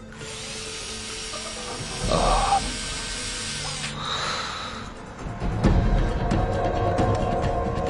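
A surgical drill bores through skull bone during an operation, giving a high, hissing whine that runs for about four seconds. A shorter, brighter burst of drilling follows amid rustling and handling noises.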